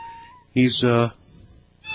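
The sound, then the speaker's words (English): A pet cat meows in its cage, one loud, drawn-out, tonal meow in the middle after a quiet start, then quiet again. “Hi, kitty. Now, I don't know whether you can hear this guy or not. I have no idea whether it's coming over the air. Hi. That's my little guy.”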